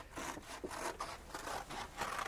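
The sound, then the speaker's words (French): Scissors cut a footprint shape out of paper, producing a steady series of rasping, scraping snips in a regular rhythm, each stroke a short papery swish, heard alone. “Découpez cette empreinte de pas que vous voyez fort distinctement. Voilà, les ciseaux et le papier.”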